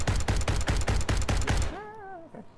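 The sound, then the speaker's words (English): An M30M autocannon fires during a tabletop role-playing game: a rapid burst of loud, heavy shots in a fast, even rhythm, then the firing stops abruptly. “I'll take a long shot with my M30M autocannon. Line it up.”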